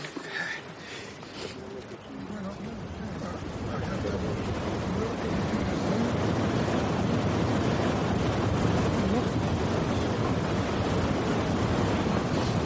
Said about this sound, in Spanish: La montaña nos recibió con el viento del pueblo. ¿Te acordás de estos vientos, no? Nos está hablando, ¿eh?